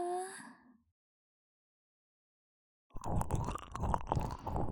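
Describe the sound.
Wet sucking and smacking mouth sounds on a fingertip, a dense run of soft slurps and clicks, come after a brief voice and a stretch of silence.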